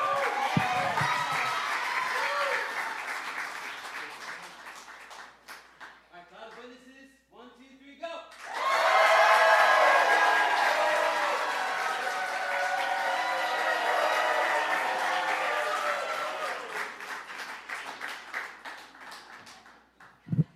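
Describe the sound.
An audience at a sermon cheers and applauds loudly for a woman as she comes in. A voice is heard first, then after a short lull a dense, sustained wall of clapping and cheering rises suddenly and carries on.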